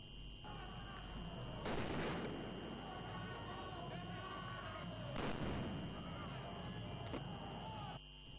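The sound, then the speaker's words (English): Police flashbangs going off at a street protest in São Paulo, thrown to disperse demonstrators: three sharp, isolated bangs spaced several seconds apart over a continuous noisy background. “Scuffles broke out between demonstrators and police in Sao Paulo, with law enforcement personnel using tear gas and flashbangs to disperse the crowd.”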